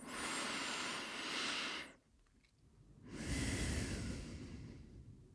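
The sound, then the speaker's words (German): Deep breathing during a calming exercise: two long, airy breaths separated by a short pause, each steady and fairly loud, with no talking. “Lass uns gemeinsam noch dreimal tief ein- und ausatmen.”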